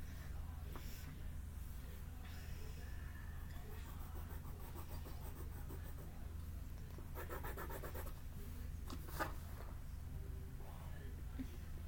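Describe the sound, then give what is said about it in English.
Pen drawing on paper, faint scratchy strokes in short bursts over a quiet, steady hiss. “So, I'm writing over his hands right now.”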